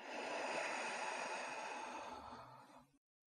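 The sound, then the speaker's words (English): A long, slow breath, soft and airy, flows steadily for about three seconds during a guided relaxation exercise before a bedtime story, then stops. “Do that one more time. Breathe in and out.”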